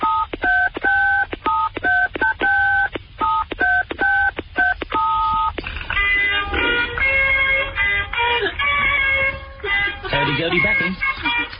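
Touch-tone phone keypad tones play a well-known rock riff as a tune: many short, evenly spaced two-tone beeps in a steady rhythm, followed by a denser stretch of overlapping pitched tones.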